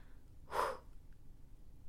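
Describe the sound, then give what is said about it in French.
A single quick, deep breath drawn in before speaking. It comes as one short airy burst, moderately loud, with no other sound around it. “Alors je respire et je me lance.”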